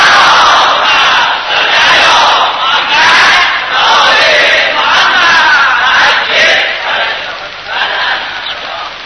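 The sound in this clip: An audience chanting salawat in unison, loud massed voices swelling and receding in waves throughout.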